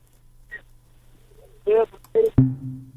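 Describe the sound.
A dropped phone call on a radio call-in line: brief electronic telephone tones, then a sharp click followed by a steady low line hum.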